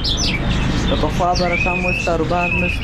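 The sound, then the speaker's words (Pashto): Many birds chirp at a bird market in Kandahar city, where canaries, quails, bulbuls, parrots and partridges are sold; bright, rapid tweets and whistles run throughout over a constant din, with people talking underneath. “د کندهار ښار د مرغانو بازار کې کینری واټر چوغه کې بلبلان توتیان زرکی کرکان او ډول ډول مرغان ست”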